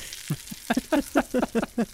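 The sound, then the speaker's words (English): Bacon frying in a pan crackles and spits in a rhythmic run of many short, sharp pops over a faint background hiss, the bursts coming faster in the second half. “That's bacon. That's what people will be hearing this weekend at Bacon Fest.”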